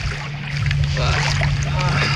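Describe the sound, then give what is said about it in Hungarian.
A boat speeds up through choppy, windy water. A steady low engine drone runs under continuous splashing and wind noise. “Most nagyon megy. Jó, jó gyorsul a hajó.”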